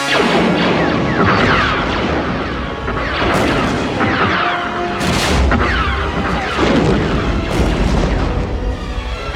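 Weapons opening fire in a loud, dense barrage of booms and blasts that keeps going without a pause.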